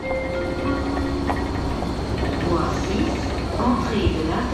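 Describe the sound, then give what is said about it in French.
Busy railway station in Lausanne under renovation, with a continuous dense hubbub of murmuring crowds and low rail rumble, steady and fairly loud throughout without pause. “Bienvenue à la gare de Lausanne. Ici, aujourd'hui, des dizaines de milliers de personnes se bousculent tous les jours au milieu d'un gigantesque chantier.”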